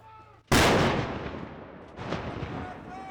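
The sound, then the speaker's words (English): Heavy artillery fired by soldiers in a field near Grayling during a training maneuver. A sudden loud blast rolls into a long rumbling decay, then a weaker second report follows about one and a half seconds later. “a group of soldiers shoot off some heavy artillery in a field northeast of Grayling”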